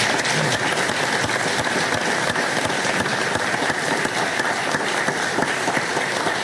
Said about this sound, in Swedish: Jag tycker de kan få en applåd till.